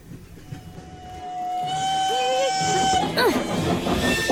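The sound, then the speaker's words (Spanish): An old-fashioned train from the Industrial Revolution era runs with a low rumble and a long, steady whistle tone that ends in a brief bending squeal, while people speak over it. “¡Qué lindo tren! Es un poco antiguo, ¿no?”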